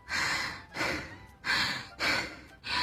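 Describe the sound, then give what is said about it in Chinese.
A voice coach demonstrates shallow, rapid breathing like someone panicked or overexcited: five quick, breathy gasps in a steady, hurried rhythm, each a short burst of air with brief gaps between. “人们在情绪失控、愤怒、慌张、过于兴奋的时候，就容易引发很浅、很急促的呼吸，类似于这样。”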